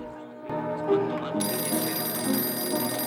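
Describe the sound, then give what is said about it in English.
A telephone rings in a bar, a steady, loud ringing that starts abruptly and continues without a break until the end. “The barman answers the phone.”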